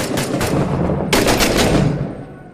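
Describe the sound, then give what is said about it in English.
Dense automatic gunfire from a military shooter video game, with rapid overlapping bursts that stay loud throughout, a sharp fresh volley about halfway through, and a fade at the end. No voices are heard. “Still shooting at us.”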